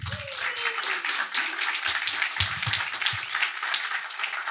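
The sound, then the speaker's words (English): Audience applause at a fellowship demo day as the last startup company is introduced: dense, steady clapping that fills the whole stretch at an even, fairly loud level. “Make some noise, please, for Isaiah with Smoove Creations.”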